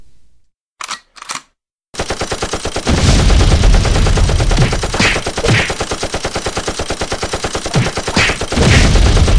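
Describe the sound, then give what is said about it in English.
Machine gun fire: loud, sustained rapid bursts pound on almost without pause for several seconds, preceded by two short sharp clicks. “I was going to say I've got a machine gun”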